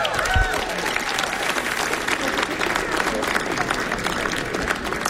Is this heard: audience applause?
yes